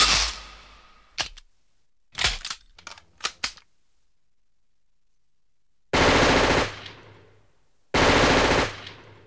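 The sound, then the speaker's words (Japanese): Gunfire from a camouflage submachine gun carried by a diplomat's bodyguard: a sharp opening report and a few short single cracks, then after a pause two loud, sustained automatic bursts separated by a brief gap. “camouflage submachine gun, used by the bodyguard of the Gabal Republic's official diplomat.”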